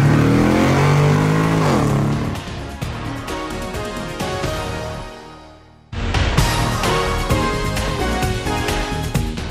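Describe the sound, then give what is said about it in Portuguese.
A car engages first gear and accelerates hard, its engine note loud and rising as it revs, then dipping briefly before surging back to full volume with no speech. “engata a primeira e acelera!”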